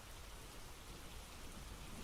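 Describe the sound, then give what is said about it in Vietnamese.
Heavy rain flooding a narrow alley, a continuous, fairly quiet hiss with no distinct drops or thunder standing out. “Mưa lớn làm cho con hẻm nhỏ ngập đầy nước.”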